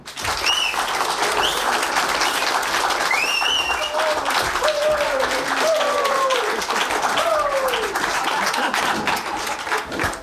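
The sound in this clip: Dense, sustained audience applause welcomes a legendary Czech pop music guest at a nostalgic entertainment show. The clapping stays loud and even throughout, and high whistle-like tones rise above it.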